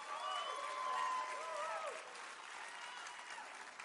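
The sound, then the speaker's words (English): Audience applause greets a woman welcomed as a guest onstage: dense, steady clapping, loudest in the first two seconds, then continuing slightly softer to the end, with a few raised voices mixed into the crowd noise. “Let's give her a hand.”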